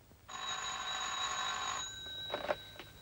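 A telephone rings with one sustained electronic trill lasting over a second, followed by a few brief, softer tones before quiet returns.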